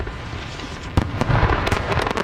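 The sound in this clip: Fireworks explode at an almost-legal fireworks show: a steady crackling rumble, then from about one second on, many sharp bangs and bursts of crackle, loud and dense, with no voices.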